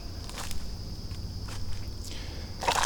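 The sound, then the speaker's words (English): Footsteps walk outdoors toward a log bridge: a few slow, soft crunching steps, faint over a low background rumble. “I'm walking towards the log bridge. I'm at the log bridge.”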